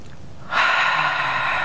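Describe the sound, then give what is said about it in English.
A deep breath drawn in during a guided positive-affirmation hand exercise: a sudden, steady, airy rush that starts partway through and holds to the end, alone with no talk. “Now take a deep breath.”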